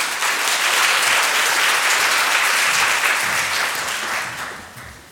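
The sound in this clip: Audience applause welcomes two library cataloguers to the stage before their talk. The clapping is dense and sustained throughout, staying loud and even before tapering off slightly in the final second.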